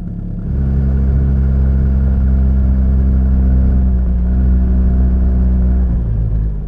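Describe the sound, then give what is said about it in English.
Rhino side-by-side utility vehicle engine: a low, steady, rumbling drone that kicks in after a moment and holds a fairly even pitch, with no voices heard. “I'll take you on a ride in the Rhino. I get to drive.”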